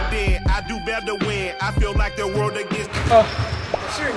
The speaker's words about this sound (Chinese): 和一位神秘嘉宾来打场篮球， 兔八哥